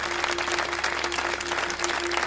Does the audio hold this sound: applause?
yes